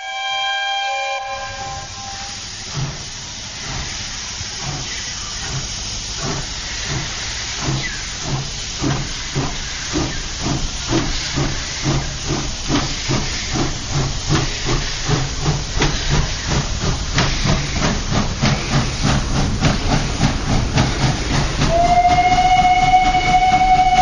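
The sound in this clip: A steam locomotive pulls away with hissing steam. A whistle blast opens, then rhythmic chuffs start slowly and steadily quicken and grow louder. Another whistle sounds near the end.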